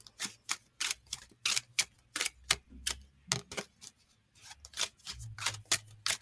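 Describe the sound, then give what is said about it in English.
Cards being shuffled and pulled from a deck: many crisp, snapping flicks and taps in a quick, uneven rhythm with short pauses, quiet and without talking. “I love the card ASMR.”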